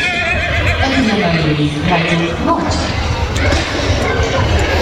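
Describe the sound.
A horse whinnies at an equestrian competition in a riding ring, a wavering neigh that drops in pitch, heard over constant background noise while people talk throughout.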